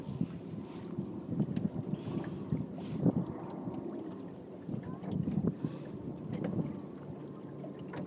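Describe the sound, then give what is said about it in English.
A sailboat zigzags into the mouth of a marina against a headwind blowing straight out of it, with steady wind rushing over the microphone and low water noise, constant and fairly loud throughout. “Because the wind's because the wind is coming more or less straight out into the mouth of the marina, we have to zigzag to get in.”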